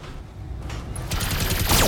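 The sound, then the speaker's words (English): Small laser and machine gun hits in a mech video game land as a dense, rapid crackle of gunfire that grows steadily louder and harsher toward the end. “Small laser and machine guns hit.”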